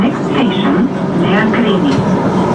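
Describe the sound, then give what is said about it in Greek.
A Thessaloniki Metro train at Nomarchia station, one of the new stations on the extension toward Kalamaria, gives a steady rumbling drone, with voices talking over it. “Ο Πρωθυπουργός φτάνει στο σταθμό Νομαρχία του Μετρό Θεσσαλονίκης, που αποτελεί έναν από τους νέους σταθμούς της επέκτασης προς Καλαμαριά και επιβιβάζεται σε σειρμό με προορισμό τον σταθμό Μίκρα.”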